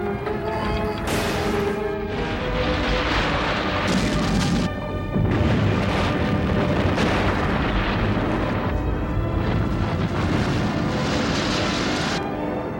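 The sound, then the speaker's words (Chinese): A massive man-made explosion deep underground beneath a city: a loud, continuous roaring rumble with heavy crashing booms layered through it, sustained at full strength throughout. “几乎在这同时发生的，并不是地震，而是海尼塞市的地下大规模的人为爆炸所引起的。”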